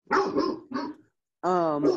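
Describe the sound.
Dog barking in a few loud, harmonic bursts, with a brief silence before a longer, steadier yelp that runs to the end.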